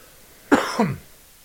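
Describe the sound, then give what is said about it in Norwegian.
A person coughing: two quick, harsh coughs in rapid succession, loud and short, with nothing else around them. “nå må jeg hoste igjen, vent 2 sekunder”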